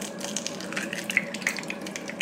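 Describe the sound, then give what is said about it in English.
An egg frying in very hot oil in a pan gives a steady crackling sizzle, dotted with small sharp pops, and no one speaks. “That's so interesting the way you want it to bubble. Goes on top. You want it to all bubble up. So I just throw the oil on top because it's super hot.”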